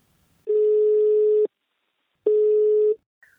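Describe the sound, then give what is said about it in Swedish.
A telephone ringing tone on an outgoing call: two steady, mid-pitched, fairly loud tone bursts separated by silence, the first about a second long and the second a little shorter. “Nu tar vi en kort paus för jag tänkte ringa upp min samarbetspartner Invacare.”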